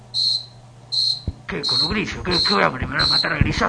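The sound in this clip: Cricket chirping in short, high, shrill trilling bursts, about five of them evenly spaced; the first chirps sound alone, then people start talking loudly over the continuing chirps.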